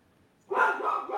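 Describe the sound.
A dog barks at a bird outside. After near silence, a burst of loud, rapid, agitated barking starts partway through and keeps going to the end.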